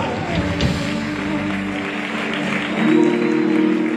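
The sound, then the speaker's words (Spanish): Congregation applause at a miracle healing campaign in Nicaragua, steady crowd clapping blended with sustained tonal sound, swelling louder toward the end. “Un aplauso, sigue aplaudiendo por ellos. Un aplauso.”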